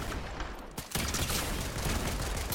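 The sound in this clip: Gunfire in a 2v2 video game match: a dense, continuous crackle of rapid shots that drops into a brief lull partway through, then resumes steady and loud to the end.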